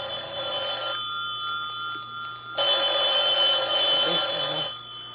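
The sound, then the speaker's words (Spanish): A telephone in a hallway rings in two sustained, bright electronic trills separated by a short pause, with no voices. “El aparato telefónico estaba en el pasillo.”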